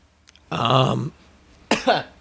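Someone clears their throat with a harsh, rasping burst about half a second long, followed after a pause by a shorter, gruffer second rasp, alone and without speech.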